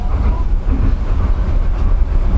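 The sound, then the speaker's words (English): A fast train rumbles along, a loud, continuous low roar with rattling wheel noise that pulses slightly but never lets up, and no voices. “It's like lots of tunnels and it goes super fast. Attention please, the train is about to board.”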